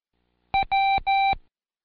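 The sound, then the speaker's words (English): Morse code keyed as beeps: one short tone and then two long ones, spelling the letter W, in a steady mid-pitched tone with buzzy overtones, loud and on its own. “I'll send you some letters in Morse code. I know you don't know most of them, but see if you can pick out the W's.”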